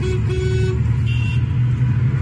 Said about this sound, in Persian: اینم بعد بازی ایران آمریکا، بوق و شادی مردم کرج، گوهردشت کرج